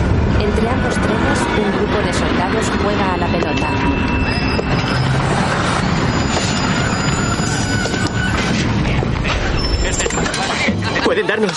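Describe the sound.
Rail noise in a World War II deportation drama, beside another train stopped on the tracks: a continuous, loud rumble with metallic squeals and clanking running throughout, and voices over it.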